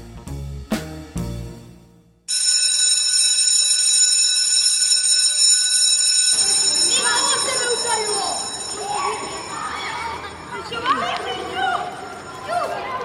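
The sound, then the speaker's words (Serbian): An electric school bell rings to mark the end of class, a loud, continuous metallic ring lasting several seconds, then giving way to a busy hubbub of voices in the hallway. “Školsko zvono koje označava kraj časa”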